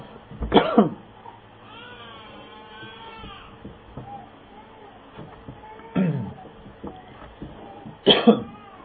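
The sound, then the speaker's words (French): Three harsh, separate coughs from someone clearing a blocked throat mid-sentence. One comes early and two come near the end, with quieter throaty and voiced sounds in between. “comme dirait Jonah, j'ai un chat dans la gorge, il ne veut pas sortir.”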